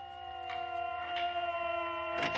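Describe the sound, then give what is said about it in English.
Air raid sirens wail during a nighttime zeppelin raid on a city: steady, sustained tones with a slight downward drift in pitch. Brief bursts of rough noise break through a few times. “Sister, these sirens.”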